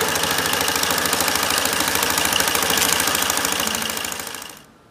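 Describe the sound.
A machine with a full roll of material feeding through it runs with a loud, fast, steady mechanical clatter and a dense, even rhythm. It then winds down and fades out near the end.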